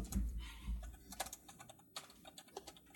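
Keyboard typing as someone enters a name: quiet, irregular key clicks in short bursts, with a soft low thump near the start and no talking.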